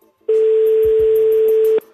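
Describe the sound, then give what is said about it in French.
A telephone line tone as a number is dialled to reach a contest winner: one loud, steady, mid-pitched tone that holds for about one and a half seconds, then stops abruptly. “On compose le numéro. Ça sonne”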